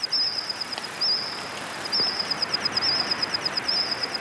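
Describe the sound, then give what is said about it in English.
AI-modeled calls of prehistoric insects from the dinosaur era, reconstructed from fossils: shrill, high-pitched chirping trills that repeat in many rhythmic bursts over a faint, steady hiss. “Using the fossil record and AI, scientists have modeled the calls of insects that lived alongside dinosaurs.”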